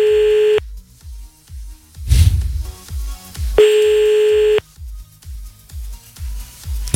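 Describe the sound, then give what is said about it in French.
A telephone ringback tone on an outgoing call placed just after midnight. Two steady beeps, each about a second long, are separated by a long pause, over a low pulsing beat with a brief noisy burst between them. “Donc, on y va, c'est parti, on appelle le premier maintenant, là.”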